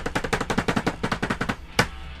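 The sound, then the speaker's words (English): A cheap-sounding drum roll effect made of a rapid, evenly spaced run of sharp hits that stops, followed by one final accented hit. “So, insert shitty drum roll.”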